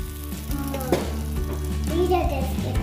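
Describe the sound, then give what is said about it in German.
Hot butter sizzles as it is added to roasted almonds, a continuous crackling hiss with soft stirring sounds mixed in. “Dann geben wir da noch die gerösteten Mandeln mit dazu. Und die heiße Butter.”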